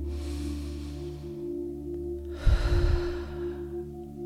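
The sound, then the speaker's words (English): A long, full exhale during a guided breathing exercise, a soft breathy rush that swells partway through and fades slowly over a steady, sustained musical drone. “Good, and full exhale.”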